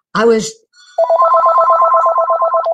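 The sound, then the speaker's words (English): A telephone rings with a rapid, repeating warbling trill that stays loud and steady, after a short burst of voice at the start. “My phone ringing. Are we okay with it?”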